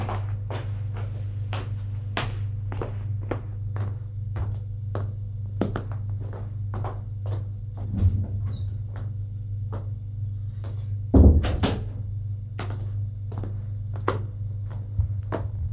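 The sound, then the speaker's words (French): A man's footsteps go up to his room as many soft, evenly spaced taps in a steady walking rhythm over a low constant hum, with one heavier thump near the end. “Il monte à sa chambre.”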